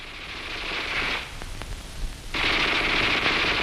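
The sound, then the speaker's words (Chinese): Bursts of a Japanese Type 11 light machine gun firing in a wartime battle scene: a dense, crisp rattle of rapid shots, a short lull broken by a few separate sharp cracks, then sustained loud fire again. “你听啊， 那小歪把子声音多脆呀。”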